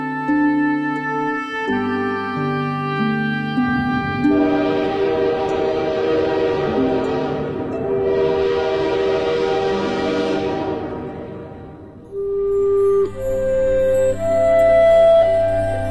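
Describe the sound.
A train arriving at a small end-of-line station after a journey through the desert gives a long, loud, hissing blast with a short dip in the middle. Sustained musical tones play throughout, before and after it.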